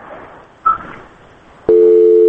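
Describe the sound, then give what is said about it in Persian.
A telephone busy tone follows a call to a radio program that was cut off. Faint hiss gives way to a loud, steady electronic tone that starts abruptly and holds to the end. “متاسفانه تلفن قطع شو”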